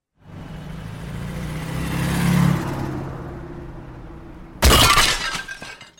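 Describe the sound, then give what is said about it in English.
A comedy sound effect of a car driving off: the engine revs and swells, then fades, and a loud crash of shattering glass follows. “Now let's get to the Hollywood Canteen, boys. I'll drunk drive us there now.”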